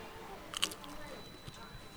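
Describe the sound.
One crisp crunch as someone bites into thawing frozen grilled eel kabayaki, followed by faint chewing and a softer crunch later, all very quiet.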